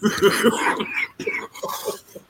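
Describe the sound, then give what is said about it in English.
Coughing: a few harsh, throaty bursts in quick succession, loud at first and then trailing off, with a rough throat-clearing quality. “This is a cough.”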